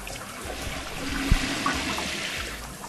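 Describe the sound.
A toilet flushes at the shower, where something will not go down: a steady rush of swirling, trickling water with one brief low knock midway, and no voices.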